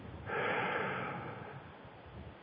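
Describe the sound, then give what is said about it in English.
A deep inhalation drawn into the diaphragm during a singer's breathing exercise: one long, breathy intake that swells quickly, holds and then slowly fades, soft and airy with no voice. “I breathe in the breath of God and take it right into the diaphragm.”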